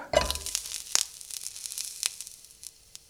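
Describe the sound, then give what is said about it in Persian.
Meat sizzling in a pan while being fried for ghormeh sabzi, a Persian herb stew. A steady, moderately quiet hiss of frying is broken by a few sharper crackles and pops, with no talking. “خب دو سمت گوشت که کامل سرخ بشه گوشت رو از توی ظرف در میارم”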